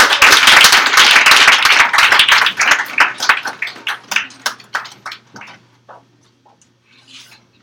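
Applause and clapping from an audience welcoming a performer back to the mic at a live open-mic segment. Dense, loud clapping gradually thins into scattered individual claps and fades out over several seconds.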